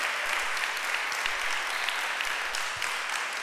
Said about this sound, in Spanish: Vamos a darle un aplauso más fuerte a ese Jesús que sana. Pero fuerte, que lo escuche todo Yajalón.